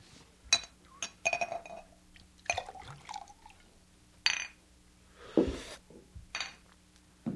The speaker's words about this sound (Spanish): Ahora voy a prepararme unos huevos revueltos. Y mientras tanto, beberé mi solitaria copa de tequila.